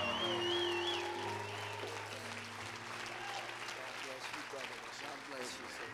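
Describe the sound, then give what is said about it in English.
Applause from an audience welcoming an evangelist at an evening worship service, a faint, steady wash of many hands clapping continuously throughout. “Come on, give him a hand as he comes forward.”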